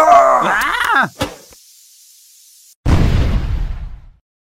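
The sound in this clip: A video-game explosion bursts loudly as a deep, rumbling blast that decays over about a second, after a groaning character voice and a sharp hit followed by a near-silent pause.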